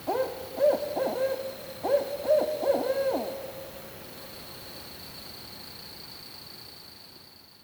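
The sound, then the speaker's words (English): Barred owl hooting in Maryland: two rhythmic phrases of low, resonant hoots rise above a steady background hiss, and after them the hiss continues alone. “The barred owl is very common here in Maryland. So the barred owl sound kind of sounds like, who cooks for you? Who cooks for you?”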